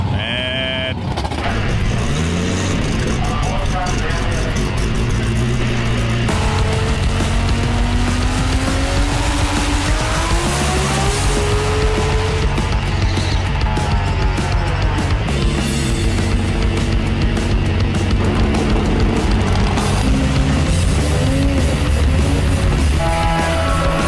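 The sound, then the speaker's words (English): Loud, continuous engine roar from drag racing cars at a drag racing event in Sydney. Strained engine tones rise and fall over dense, steady noise that runs through the whole clip. “Drag racing is about to kick off. Get ready.”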